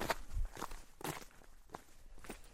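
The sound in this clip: Soft footsteps of people hiking with packs up an approach trail to a climbing crag, wearing sport sandals. A few irregular, muffled steps sound faintly over low background noise.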